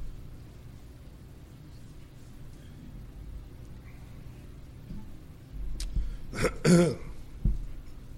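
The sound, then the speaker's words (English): Throat clearing, a short cluster of rough, harsh bursts near the end, standing out above an otherwise low, steady background hum. “I've got something in my throat that I'm trying to deal with here”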